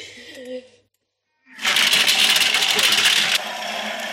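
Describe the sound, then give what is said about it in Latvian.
A blender's blades grinding frozen berries into a powdery mass, a loud, steady, harsh whirring roar that starts after brief talk and a short silence, then drops slightly in level near the end. “Tas skaļums ir, kamēr oga ir vēl kā oga, tad viņš tur ar tiem asmeņiem tā ir troksni.”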